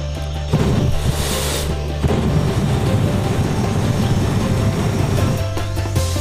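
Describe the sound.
A vehicle engine revving as it accelerates, giving a loud, sustained roar with a deep rumbling low end. The roar jumps up in level early on, surges again shortly after, then runs on steadily.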